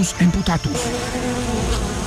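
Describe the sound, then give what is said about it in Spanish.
Worker bees buzz in a dense, steady drone that fills the whole clip. The sound is loud and continuous, with small wavering shifts in pitch. “las abejas trabajadoras no se van a quedar quietas ante tanta preocupación, y mucho menos van a aceptar que se ataque a su abeja reina, la temida Uribetus verracus emputatus.”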